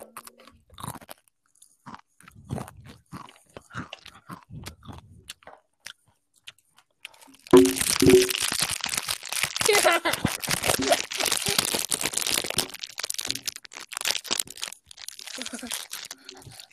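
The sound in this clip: Crunchy chips chewed close to the microphone: after quieter rustling and soft talk, loud, dense crackling crunches start abruptly and continue for several seconds in an irregular, busy rhythm.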